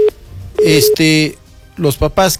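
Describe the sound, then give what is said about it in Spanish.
Flat telephone tone as a phone call is cut off: a very short beep and then a slightly longer steady tone, with a person speaking afterward. “Cortamos la llamada, producción, por favor.”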